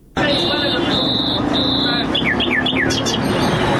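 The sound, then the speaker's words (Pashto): Wild birds chirping at a bird market in Kandahar where bulbuls, partridges and mynas are sold: shrill sustained whistles and quick repeated descending chirps ring out loudly over constant background noise. “دا د کندهار شهر په منځ کې د وحشي مرغانو د پیر او پلور بازار دی دلته پلسکونه بیلابیل ډول وحشي مرغان لکه بلبلان جلان زرکی میناوی او نور”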